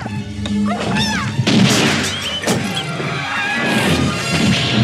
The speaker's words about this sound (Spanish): Las persianas se abren dejando entrar el sol sobre Stray